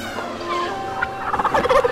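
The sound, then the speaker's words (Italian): Turkeys gobble in a rapid, warbling chatter of bursts, sparse at first and growing louder and busier toward the end, with no voices present. “abbiamo partorito il trattamento body definitivo, Turkey, il massaggio con tacchini. Coricati nella vasca e lascia che i pennuti con i coglioni in faccia si occupino di te.”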